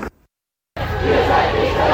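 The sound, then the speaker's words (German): Protest crowd blocking a street in front of a police blockade: dense, loud crowd noise of many mingled voices and shouts sets in after a brief silence and then continues steadily. “Ihr hört hier im Hintergrund die Blockade, die sich aus Hochheim gelöst hat Richtung sozusagen Stadt, Richtung Wartburgstraße.”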